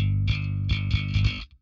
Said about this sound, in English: So obviously that's with a pick, and I play super hard, and the compressor does a great job at bringing it all nice and level for me.